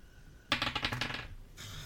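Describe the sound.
Dice are rolled for a perception check in a tabletop role-playing game. A brief, quiet clatter of rapid clicking rattles lasts under a second and then stops.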